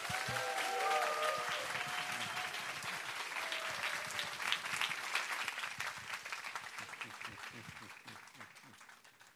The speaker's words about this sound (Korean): 자, 우리 박수 한번 합시다.